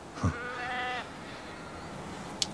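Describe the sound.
A single sheep bleats at lambing time on a small farm of about 100 acres. The wavering, harmonic bleat lasts about half a second and is followed by quiet background with a faint click near the end.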